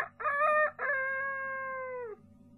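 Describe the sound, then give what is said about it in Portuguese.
A person imitates a rooster crowing: a short, strained opening burst, then one long sustained call that holds steady and drops in pitch as it ends. The voice is loud and clear, with a faint low background underneath. “Eu sabia que também conseguia imitar um galo.”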